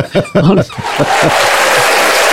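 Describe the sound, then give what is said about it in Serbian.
Audience applause, a steady hissing clatter of clapping that rises after a moment of talk and chuckling and fills the rest of the moment. “Hvala Bogu, da, uz gromoglazni aplauz e, opraštamo se ovaj, od našeg brojnog slušalaštva”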